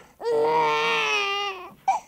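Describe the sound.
A baby gives one long, loud wailing cry with a strongly tonal, harmonic voice that holds steady for over a second. A brief short sound follows the cry.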